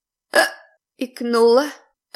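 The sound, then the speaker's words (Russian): A woman hiccups a few times: short, abrupt vocal bursts, one of them a drawn-out voiced squeak, each separated by brief silence. “Икнула еще раз.”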